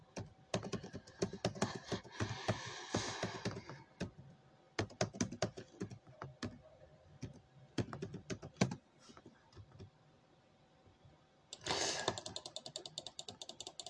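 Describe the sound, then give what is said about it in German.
Fast typing on a computer keyboard during a game: many rapid, crisp key clicks in dense bursts, a sparser stretch of scattered taps in the middle, then another quick flurry near the end, with no talking. “Seid froh, dass ich so schnell schreibe”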